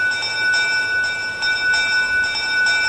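A small bell rings with bright, high, sustained tones that pulse in a steady, regular rhythm and never fully fade throughout.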